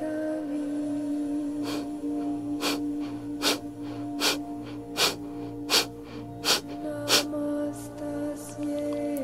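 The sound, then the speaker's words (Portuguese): Forceful, vigorous abdominal breathing during a meditation exercise, heard as a series of short, sharp breaths pulsing at an even rhythm. The breaths are moderately loud over a soft, sustained drone. “Então, inspira, enche o abdômen de ar. Expira, esvazia o abdômen, forte e vigoroso.”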